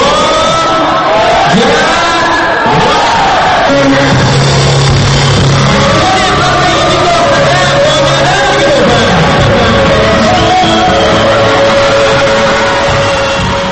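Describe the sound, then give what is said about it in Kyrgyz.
A concert audience in a Bishkek hall greets a singer's entrance with a loud, sustained roar of cheering, shouts and whoops that fills the whole stretch without a break. “Божолар командасынын солисти Жахангир Пазылжановдун сахнага чыгышы көрөрмандарынын залды жаңырта кол чабуу сүрөндөрү менен коштолду.”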